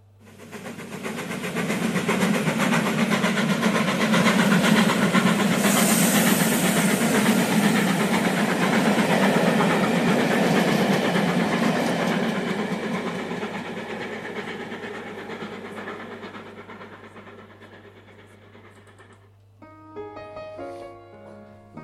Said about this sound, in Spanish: tengo que salir al pasillo y por eso se oye el tren, porque, claro, cuando están las puertas cerradas los vagones se oyen menos, pero en cuanto salgo al pasillo se oye mucho.